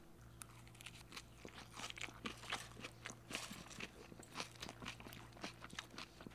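Crisp crunching and chewing come from someone eating a spinach salad with cucumbers, tomatoes, red bell peppers, onion and a black bean quinoa patty in toasted sesame dressing. Many quiet, rhythmic crunches and munches follow one another without talk.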